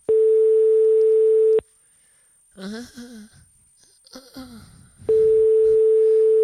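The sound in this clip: A telephone ringback tone plays on an outgoing call. One long, steady, mid-pitched tone is followed by a pause that holds brief vocal sounds such as a sigh, and then the tone starts again.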